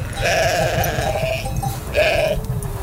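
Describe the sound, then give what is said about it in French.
Sheep bleating, a young ewe with her first newborn lamb: a long, wavering bleat followed after a pause by a shorter one, over constant low rumbling background noise. “Là, c'est son premier agneau, en fait.”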